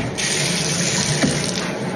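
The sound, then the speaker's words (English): A hot shower with eucalyptus leaves runs as a continuous, even hiss of spraying water, steady and fairly loud with no other sounds. “She takes a hot shower. With eucalyptus leaves.”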